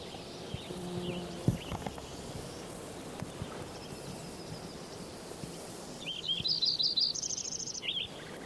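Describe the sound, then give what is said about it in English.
Lincoln's sparrow song: a quick, bubbly run of high, thin warbled notes lasting about two seconds near the end, after a long stretch of low, rumbling background with a single soft thump early on. “Lincoln sparrow number 7.”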